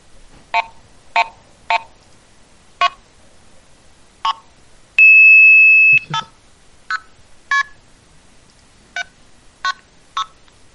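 Telephone signaling tones from a PLA blue box tone generator: five short two-tone beeps at an uneven pace, then one steady high tone lasting about a second, then six more short beeps. All are fairly loud and clean, with no talk.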